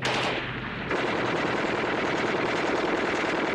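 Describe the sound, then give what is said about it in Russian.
A Maxim machine gun firing heavily in a wartime battle with tanks: a steady, rapid stream of loud shots that runs unbroken from start to finish, with no voices. “Плотный огонь пулемета «Максим».”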